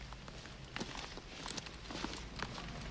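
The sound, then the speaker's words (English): Footsteps of two people carrying ammunition down steps toward a seaplane moored by a jetty: a few soft, scuffing treads over a steady background hiss, irregularly spaced and fairly faint, with no talk. “John and Cindy carry the ammo down some steps towards a seaplane”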